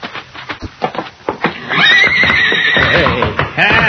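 A stallion whinnies and kicks in a barn stall: a run of sharp, irregular thuds comes first, then a loud, long, wavering neigh, followed by a second strong whinny near the end.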